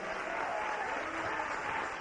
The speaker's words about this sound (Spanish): Dele un aplauso al Rey.